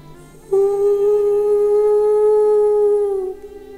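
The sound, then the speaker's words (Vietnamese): A wolf howls at the full moon on a high mountain peak at night: one long, loud, sustained howl that holds a steady pitch and dips slightly just before it ends. “Nhìn vần nguyệt giữa bầu không tối tăm, Lan Vương hú lên một tràng dài.”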